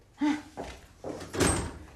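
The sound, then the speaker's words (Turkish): A door is opened with a few dull thuds and clunks of the handle and frame, fairly faint and heard without talk. “hadi aç şu kapıyı bakayım”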